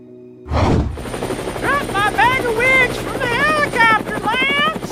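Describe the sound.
A helicopter in flight, dropping a bag of wigs on a bungee cord, gives a loud, steady rotor and engine roar after a sharp burst at the start, with voices talking over the din.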